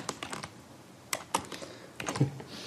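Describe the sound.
Typing on a keyboard: irregular bursts of quick, light key clicks, fairly faint, with a short lull in the middle and no talk over them.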